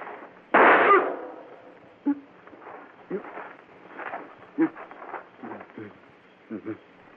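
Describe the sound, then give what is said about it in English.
A single loud, sharp gunshot cracks early on, then quieter talk and scattered soft thuds follow. “killed him first shot.”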